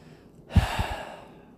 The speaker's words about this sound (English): Like right now, I'm just taking a breath.